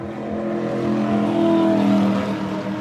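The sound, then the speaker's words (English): Race car leaving pit road in first gear at 2,000 RPM: a steady, loud, low engine drone with strong tonal harmonics, swelling slightly toward the middle. “When you leave pit road, you'll be in first gear. You'll have a green light on the dash. You leave at 2,000 RPMs.”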